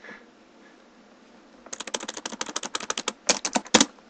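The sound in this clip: Rapid typing on a computer keyboard: after a brief near-silent pause, a quick, uneven burst of many sharp clicking keystrokes runs to the end.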